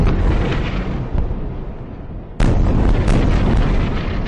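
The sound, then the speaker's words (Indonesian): Bomb explosions in Gaza: a loud, continuous roaring rumble with one sudden sharp burst partway through, followed by more rough, crackling booms. “Itu 2,2 juta penduduk di jalur Gaza itu dihujani dengan bom, dihujani dengan segala macam senjata yang sangat canggih,”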